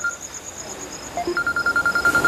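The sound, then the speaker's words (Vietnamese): A telephone rings with an incoming call: a high electronic tone sounds in rapid, regular pulses that grow louder and more insistent in the second half, after a few fainter beeps. “Chú Dương gọi nè.”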